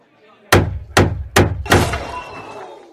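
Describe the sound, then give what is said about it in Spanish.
A gavel strikes a table four times in a fairly even rhythm, each blow a heavy, sharp knock; the final blow rings out with a longer, rattling tail. “El primer ministro se levantó y golpeó la mesa con un mazo.”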